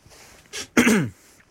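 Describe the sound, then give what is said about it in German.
A man clears his throat in two bursts: a brief huff, then a longer voiced rasp that drops in pitch as it fades, alone in an otherwise quiet moment. “er räusperte sich und machte eine lange Pause.”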